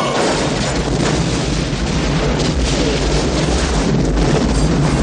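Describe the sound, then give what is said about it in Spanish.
Roaring explosion as two planes collide on an airport runway in a 1990 action film, a loud, continuous, rumbling blast that stays dense and heavy throughout. “El brutal choque de los aviones provoca una gran explosión y las llamas alcanzan gran altura.”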